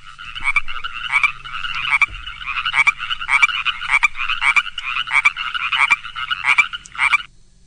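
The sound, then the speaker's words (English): Chorus frogs call from a pond in spring, a loud, dense chorus of rasping trills. The calls repeat many times in a steady pulsing rhythm, then stop abruptly. “The first ones were chorus frogs singing in a pond, springtime.”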